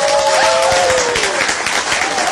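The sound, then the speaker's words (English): Crowd applause sound effect played on an afternoon radio show: a continuous, even roar of many hands clapping, with a clear tone gliding downward in pitch over the first part. “we must wheel in the crowd, come on guys, and wish him a big thank you.”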